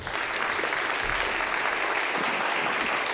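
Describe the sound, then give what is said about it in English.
An audience applauds to welcome a speaker. Dense, steady clapping runs throughout without letting up. “So Bruce, why don't you come up here? Let's give Bruce a warm welcome.”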